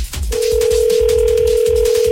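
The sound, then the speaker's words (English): A telephone rings through on a call to a contest winner, heard as one loud, steady mid-pitched tone that starts after a brief moment and holds without a break to the end. “If she'll answer the phone.”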